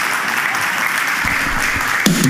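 Loud, sustained audience applause at a cowboy church welcoming guests, dense and continuous clapping with a brief sharper burst near the end.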